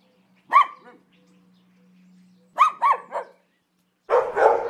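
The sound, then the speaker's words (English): A dog barks in a few sharp, loud bursts: a single bark, then a quick run of three, then a final rougher bark. No other sounds are heard around them. “This is a sample from the Ultimate Real World Dog Sound Effects Library.”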